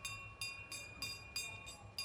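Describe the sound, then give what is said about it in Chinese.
A train about to depart: a faint, steady low rumble with a regular series of soft, hissing clatters repeating roughly every third of a second. “火车就要开了”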